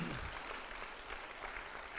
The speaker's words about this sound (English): Can you please put your hands together, church, and welcome up Pastor Vicky and Ruth as they come.